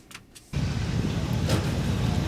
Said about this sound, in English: Just come across this beautiful car.